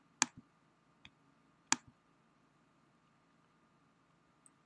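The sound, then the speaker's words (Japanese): Sharp computer mouse button clicks on a website settings page, a few brief, faint ticks spaced well apart with near silence between them. “設定が終わりましたら、このセーブ・チェンジズをクリックしてください。”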